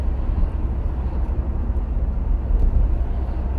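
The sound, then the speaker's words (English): A work car driving along a road in South Wiltshire gives a steady, dense low rumble of engine and road noise that holds evenly throughout, with no voices. “I'm driving to the car wash to wash the works car.”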